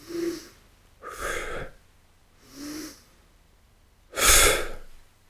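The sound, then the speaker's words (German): Calm, controlled breathing during a pause in a Turkish get-up exercise: four soft, airy breath sounds spaced about a second apart, the last one louder and fuller, with no talk. “jede Position, da mach mal zwei ruhige Atemzüge. Also nicht, ich kann weiter, sondern wirklich.”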